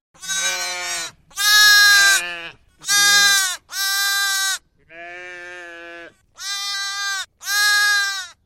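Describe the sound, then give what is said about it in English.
Little lambs bleating in springtime, seven loud, wavering bleats in a row with short pauses between them, one noticeably lower and softer than the rest. “That was the sound of lambs. Oh, yes, it was the sound of little lambs bleating away.”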